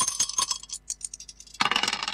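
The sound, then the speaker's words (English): Dice are tossed and tumble with a quick run of light clicks and rattles, fading briefly before a louder burst of clattering. “Let's toss the dice and see what we get.”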